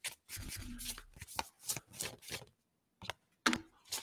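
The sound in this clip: A deck of tarot cards is shuffled in many quick, crisp riffling bursts with a short pause partway through before the shuffling resumes.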